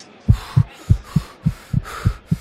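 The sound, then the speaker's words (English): Fast heartbeat of a nervous racer just before the start: eight quick, evenly spaced low thumps in a steady, regular rhythm, heard alone with no talking. “Before I start the race, the nervousness is making my heart beat fast”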